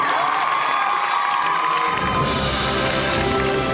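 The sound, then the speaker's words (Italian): Cheering and applause from the crowd at a book fair in Turin: a loud, continuous wash of shouting voices and clapping that holds steady throughout. “Ci sono anche degli applausi che arrivano direttamente dal pubblico che c'è al Salone del Libro di Torino.”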